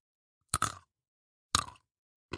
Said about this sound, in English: I just had a snack.